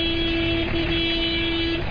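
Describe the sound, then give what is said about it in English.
Car horns blare as thousands of people crowd a narrow road in Parwak, Pakistan, heading home. A long, steady horn blast holds for nearly the whole moment over rumbling traffic noise. “Car horns soon blare as thousands jostle for space on the narrow road to begin their rugged journey back home.”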